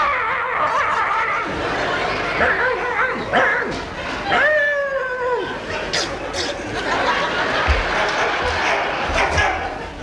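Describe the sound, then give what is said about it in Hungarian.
A small female dog barks and yips in short high bursts mixed with whimpering tones, while people talk around it. “Ezt nekem ugattad?”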